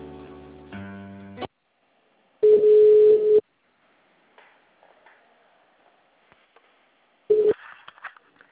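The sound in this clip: Telephone line tones during a call transfer: a short harmonic tone passage leads into a steady beep lasting about a second, then a quiet stretch with faint clicks, and a brief second beep near the end.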